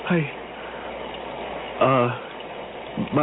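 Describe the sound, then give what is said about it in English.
Rain falls as a steady, even hiss that continues under a person talking throughout. “But, Rick, look outside. Well, it's raining.”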